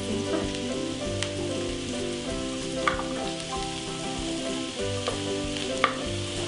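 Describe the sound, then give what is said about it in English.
Vegetables and parsnip sauté and brown in a pan with a steady, dense sizzle and a few sharper pops, over continuous low tones with no talking. “we're going to saute them, browning them nicely. And we're also going to add the parsnip.”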